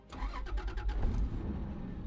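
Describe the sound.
A luxury car engine starts: a rapid run of starter cranking pulses catches and settles into a steady low idle.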